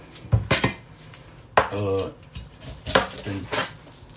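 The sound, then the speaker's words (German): Onions being cut with a knife on a cutting board next to a kitchen sink. A few irregular knocks and clatters are interrupted by brief talk. “neben dem Spülbecken habe ich links ein Schneidbrett und rechts ist die Ablage. Da liegt das ganze Gemüse drauf. Schneide es bei beiden Zwiebeln.”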